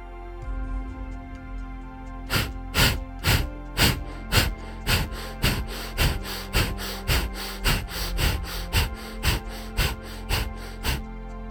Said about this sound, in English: The inhale is just the rebound of those powerful exhales. This is what it sounds like.